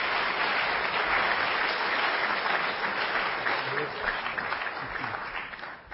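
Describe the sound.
Applause from a church audience welcoming a guest speaker to the pulpit: dense, steady clapping that holds strong for several seconds, then thins and fades near the end.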